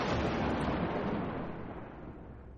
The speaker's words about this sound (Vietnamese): Trời nổ sấm chớp, mưa nặng hạt bắt đầu rơi.